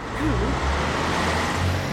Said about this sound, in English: Why has that car stopped? Is something wrong?